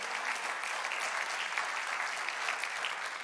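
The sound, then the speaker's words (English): A church audience applauds first-time guests to welcome them, with steady, even clapping from many hands that carries on without a break. “Can we give all of our guests a hand, make them feel welcome?”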